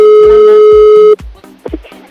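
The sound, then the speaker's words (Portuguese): A telephone dial tone as a call is being placed: one loud, steady, even hum held for about a second before it cuts off abruptly. Rhythmic low thumps of background music run beneath it. “Vamos ligar pra ele.”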